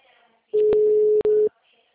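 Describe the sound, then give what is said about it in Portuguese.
A telephone ringback tone sounds as a call is placed: one loud, steady, mid-pitched tone lasting about a second, with a brief dropout near its end, against a faint background. “Tô ligando pro Renato.”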